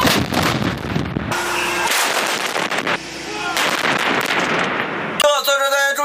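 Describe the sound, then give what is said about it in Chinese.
Artillery fires at targets tens of kilometres away during a live-fire drill. Loud, heavy booming blasts and rumbling bursts follow one another over several seconds. “指挥所综合研判态势后，下达打击指令，对数十公里外目标实施火力打击。”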